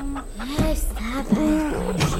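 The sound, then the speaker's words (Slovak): Hen clucking in a quick string of short, bending calls, fairly loud and continuous over a busy background. “Toto tu od rána, kotkodáka.”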